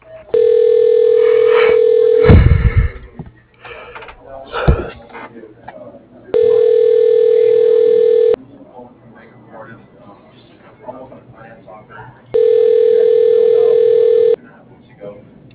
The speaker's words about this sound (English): Please hold while your call is being transferred to...